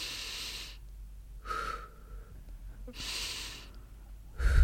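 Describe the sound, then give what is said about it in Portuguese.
Slow paced breathing in and out during a guided counting exercise: several breathy rushes of air separated by quiet pauses, steady and unhurried, with the last breath cut off at the end. “1, 2, 3, a inspirar, quando vai inspirar tem que contar até 1, 2, 3 mentalmente. 1, 2, 3, quando vai expirar conta 1, 2. Portanto, vai assim.”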